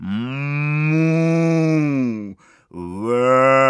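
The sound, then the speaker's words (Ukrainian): A human voice imitating oxen lowing at a fair: a long, low, mournful moo held loud and steady, a brief break, then a second drawn-out low call. “чого так трагічно, безнадійно ревуть воли на ярмарку?”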